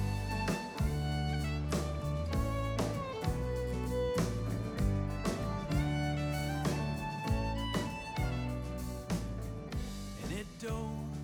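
A finished recorded song plays continuously, with pitched tones and a regular, steady beat sustained across the whole stretch at an even loudness.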